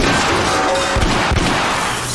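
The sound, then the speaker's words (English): Heavy thuds as a body is flung against a wall in a fight scene, a couple of dull, low impacts standing out from a loud, steady background. “Flings King at the wall.”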